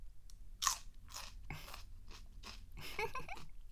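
Crunchy biting and chewing of food shared by hand: a series of crisp, fairly loud crunches, one sharp bite near the start followed by many rhythmic chews, with no talking.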